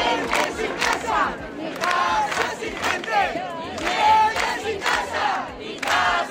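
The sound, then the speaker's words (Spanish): Crowd chanting at a housing demonstration organised by tenants in a square in Badajoz, Spain: many voices shouting in loud rhythmic bursts, repeating steadily with brief dips between phrases. “Cientos de ciudadanos se manifestaban este lunes en Cáceres y Badajoz contra la situación de la vivienda en España.”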